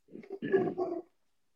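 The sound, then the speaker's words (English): A dog growling and barking gives a short, rough vocal outburst lasting about a second, moderately loud and on its own. “As my dog goes crazy.”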